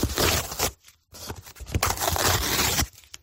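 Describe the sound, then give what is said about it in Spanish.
Gift wrapping paper and a cardboard box being torn open in loud, ragged rips and crackles, with a short pause partway through before the tearing resumes. “Este sonido, el de romper el papel de regalo y la caja de cartón, ha sido la banda sonora de esta mañana en tantas y tantas casas”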